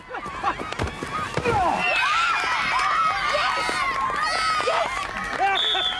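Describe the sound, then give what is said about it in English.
Families cheering on the touchline at a rugby match: a few sharp knocks at the start, then sustained excited shouting and cheering, with high-pitched children's voices among the crowd. “Families cheer on the touchline.”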